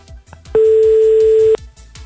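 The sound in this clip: A steady telephone line tone sounds loud and unbroken for about one second, rising out of a soft, rhythmic beat that continues before and after it.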